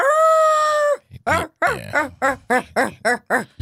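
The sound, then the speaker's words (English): A person imitates a dog howling, a dog that protests at being clipped in for a bath: one sustained, steady, fairly high vocal note held about a second, then rapid loud talking follows. “was he howling? Yes. He was literally like,”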